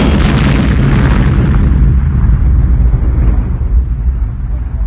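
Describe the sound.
An explosion set off with blasting caps fills the air with a loud, deep, continuous roar and rumble that slowly thins out over about five seconds.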